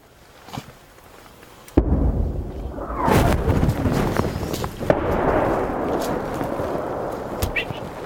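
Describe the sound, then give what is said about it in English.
Russian artillery shelling at the tail end of a full barrage: a sharp blast cuts in, then a loud, sustained low rumble with scattered booms continues to the end. “We're at the receding end of a full Russian artillery barrage.”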